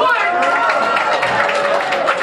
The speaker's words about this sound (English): Bill Keeler getting booed by the whole crowd.